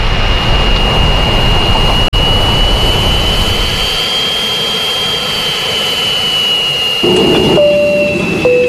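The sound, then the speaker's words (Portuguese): Boeing jet airliner engines during takeoff roar loudly and steadily, with a sustained high whine running through the whole stretch. A brief dropout comes early, and a few added tones appear near the end. “Essas são as coordenadas de voo do Boeing do Coração Sertanejo dessa terça-feira. Bom, vamos apertar os cintos e vamos decolar.”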